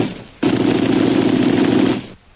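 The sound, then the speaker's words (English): Sustained machine-gun fire aimed at the Maharaja's men among rocks: a loud, dense, unbroken burst lasting about a second and a half that cuts off abruptly, with quieter noise before and after. “Let them have one more burst of those guns, and then we'll get out of here.”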